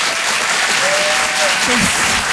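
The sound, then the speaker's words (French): Audience applause at a Paris theatre comedy show: dense, loud, continuous clapping throughout, with a voice faintly audible through it. “Je vous demande un tonnerre d'applaudissements là aussi pour Philippine Delair.”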